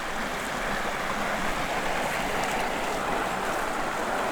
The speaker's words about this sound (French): Je me situe au bord de la route goudronnée qui mène au lac des Bouillouses